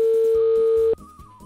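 A telephone tone sounds as a call is placed: one loud, steady, mid-pitched buzz lasts about a second, then cuts off to a faint low hum with a thin higher tone.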